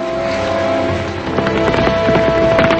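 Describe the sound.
A dragoon's horse is ridden past a house, its hooves clopping in a quick run of beats that grows louder through the second half, under a steady sustained tone.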